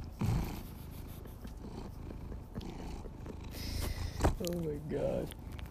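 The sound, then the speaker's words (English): A domestic cat purrs loudly and steadily, a continuous low rumbling vibration that holds throughout with slight swells in strength. “You're listening to Marky, the loudest purrer in the Los Angeles County area.”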